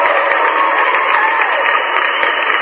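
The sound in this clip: Steady applause rewards a caller who has settled the last of his credit card debts. The short burst of dense, loud clapping holds even for under three seconds, with a narrowed, slightly muffled tone.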